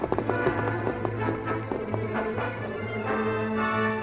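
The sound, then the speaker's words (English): Galloping hooves of a horse carrying riders into the hills, a quick, steady clip-clop of many hoof strikes heard over a continuous sustained background tone. “As the masked man and the Indian galloped into the hills, Kansas Thomas, who had been on watch at Brandon's house, followed them at a distance.”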